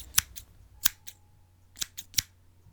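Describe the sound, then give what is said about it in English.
Scissors cut hair at a barber's chair: crisp metallic snips come in small irregular bursts, several sharp clicks spread across a few seconds, fairly quiet and with no talk. “Sharkman gets his scissors out and starts cutting your hair”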